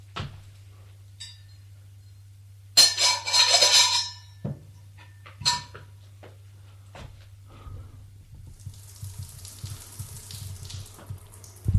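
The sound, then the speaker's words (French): Running tap water as green beans are washed: a gush of about a second, then scattered knocks and clatters and a softer, steady hiss toward the end, all over a constant low hum. “Range les choses et va laver les haricots.”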